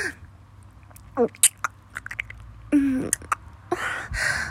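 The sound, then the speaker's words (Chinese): Someone eats and chews food: scattered soft wet mouth clicks, bites and crunchy smacks, irregular and fairly faint, with brief vocal sounds between them. “在吃东西呢。”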